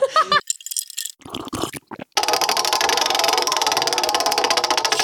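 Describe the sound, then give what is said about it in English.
A spun prize wheel rattles with rapid, steady clicking that runs loud and even for about three seconds; the wheel is stiff and in need of oil. “Please spin our absolutely real wheel.”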